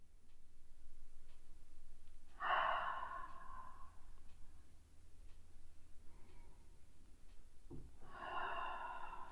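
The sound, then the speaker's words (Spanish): Slow breathing through a gently constricted throat: two soft, hissing breaths separated by a long pause, with a fainter one between, quiet and alone. “En ese cierre sutil de la garganta, para acariciar el aire que expulso, para retener suavemente ese aire.”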